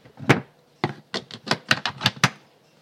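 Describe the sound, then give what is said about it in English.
A cupboard is opened and searched, producing a quick series of sharp knocks and clacks in an uneven rhythm, with short quiet gaps between them and no talking. “I'm just going in the cupboard now, if it sounds, I'm going to the bowels of the earth.”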